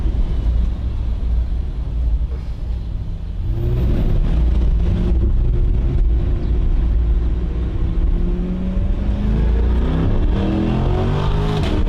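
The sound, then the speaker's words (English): A sports car in its performance mode does a launch and accelerates hard. A loud, steady engine rumble gives way to a strongly rising engine note that climbs, drops back and climbs again as the run continues. No one talks. “Now let's take it for a spin and see what this thing's got. We'll do a little launch.”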